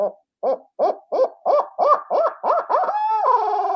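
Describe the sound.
Barred owl laughing call imitated on a game call: a run of about nine clipped, rising-and-falling hoots in steady rhythm, ending in a longer, wavering, drawn-out note that drops in pitch.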